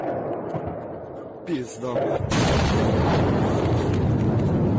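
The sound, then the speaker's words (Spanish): Bombs exploding over Kharkiv, Ukraine: a sharp blast breaks through low background noise, then a second, heavier blast opens into a sustained, loud rumbling roar that keeps going to the end. “Es el sonido de las bombas que caen sobre Kharkov, la segunda ciudad más importante de Ucrania”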